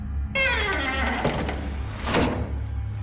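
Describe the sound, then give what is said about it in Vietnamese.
A wardrobe door swinging open on its own, heard as a drawn-out creak with a few sharp knocks and rattles over a low, steady drone. “Vì cái cửa tủ quần áo của thằng Cường. Sao tự nhiên nó lại mở ra thế kia?”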